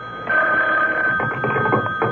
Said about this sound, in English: Then the phone rang.